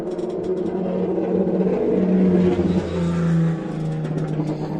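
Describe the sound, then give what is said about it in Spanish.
A tuned race car engine roars past the commentary booth, a loud, continuous, buzzy drone whose pitch shifts up and down as it passes. “A Ganduria cuando Biaggi va a pasar por el frente de la cabina puesta a punto. Escuchalo cómo suena.”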